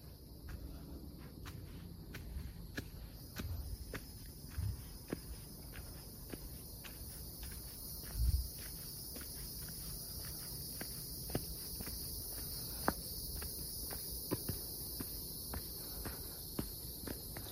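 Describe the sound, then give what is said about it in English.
Soft footsteps on a winding dirt footpath, a steady run of quiet steps beneath a constant, high chorus of chirping crickets and insects. “So we are walking on a dirt footpath. It's winding and turning, little S-shaped curves.”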